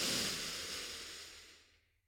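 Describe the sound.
Breath drawn in through the nose or mouth during a heart-coherence relaxation exercise: one long, airy rush of breath noise, loudest at the start, then fading away to silence.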